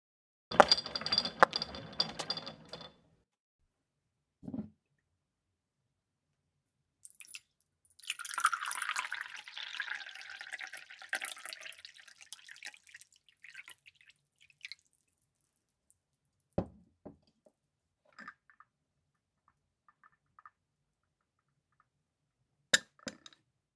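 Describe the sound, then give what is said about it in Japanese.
Tea is prepared and poured: an opening burst of clinks and handling, a longer stretch of trickling liquid, then scattered faint drips and small taps separated by silence. “お茶の用意をいたしますので、こちらを召し上がりながらお聞きください。”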